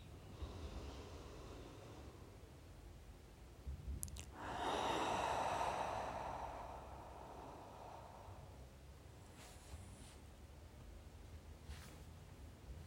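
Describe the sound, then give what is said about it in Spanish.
A deep breath during a guided relaxation exercise, drawn in through the nose and let out through the mouth: one long, airy breath swells and fades over several seconds above a faint steady hiss, with no talking. “Inhalando por nariz. Profundo, exhalando por la boca.”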